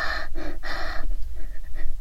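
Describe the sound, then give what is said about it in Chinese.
Loud sniffing and heavy inhaling by a person sniffing at stockinged feet: three quick, forceful breathy pulls in close succession, followed by fainter, softer breaths. “别再对着我的脚又吸又闻的了。你这样你这样大口大口的吸气，到底是做什么？”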